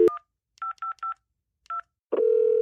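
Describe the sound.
A telephone number being dialed to order pizza: several short, clear keypad beeps in an uneven rhythm, followed by a steady, unbroken line tone.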